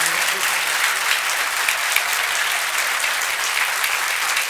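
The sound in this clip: An audience claps on request: dense, continuous applause from many hands, loud and steady for several seconds without a break.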